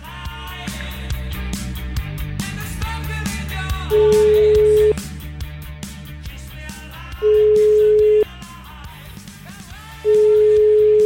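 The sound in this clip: A telephone ringback tone plays while a call is placed, three evenly spaced one-second tones of steady pitch. Loud music runs continuously underneath, with no voices.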